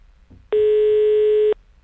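A single steady telephone ringing tone sounds during an outgoing call. It is one loud, even electronic beep lasting about a second, with faint low background noise before and after.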